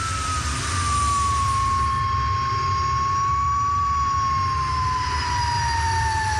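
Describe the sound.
A vintage Le Mans race car engine runs at speed, around 150 km/h, with a continuous loud roar. A high, steady whining tone sinks slightly as it holds, and there is no talk over it.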